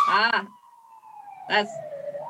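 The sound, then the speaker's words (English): Emergency vehicle sirens sound outside as a faint, wavering tone that slides slowly downward and then back up, running beneath two short bursts of people talking. “They got some sirens out there, right?”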